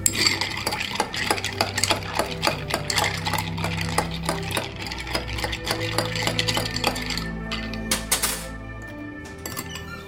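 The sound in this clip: A spoon stirs a mixture with quick, repeated clinks and scrapes in a busy, uneven rhythm, running continuously over a low background hum.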